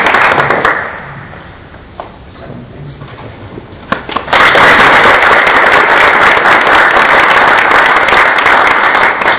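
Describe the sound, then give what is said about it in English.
An audience applauds at a rocketry event; after a quieter opening of about four seconds with a voice and scattered sounds, loud, dense clapping bursts in and continues steadily to the end. “So I'd like to give them all a round of applause.”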